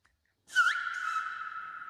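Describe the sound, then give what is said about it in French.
One human whistle renders the Greek letter delta in a whistled language, sliding briefly upward into a clear, steady held tone that carries on alone. “Ça, c'est le gamma. G. Et puis voilà le delta.”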